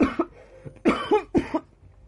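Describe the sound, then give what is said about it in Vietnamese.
Coughing after choking on a piece of apple while lying down: a few harsh, throaty coughs in short, quick bursts with brief pauses between them and no talk. “thời điểm thức ăn đang trôi xuống thì bị tắc nghẹn cổ họng, liền kịch liền ho khan.”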